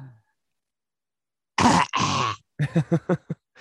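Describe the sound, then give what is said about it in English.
A voice imitates a child's dry cough, made with the mouth wide open and the tongue out. Two harsh, raspy hacking bursts come close together, followed by a quick series of short voiced bursts. “this is the child's coughs. It's tongue out, mouth as wide as it can. That's what he does. He goes,”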